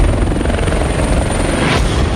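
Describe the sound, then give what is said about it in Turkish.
A police helicopter on a training flight in Pennsylvania, USA, thrums with loud, steady rotor pulsing and a constant engine roar, with no break throughout. “Amerika Birleşik Devletleri'nin Pensilvanya eyaletinde eğitim uçuşu yapan polis helikopteriyle inişe geçen küçük uçak havada çarpıştı”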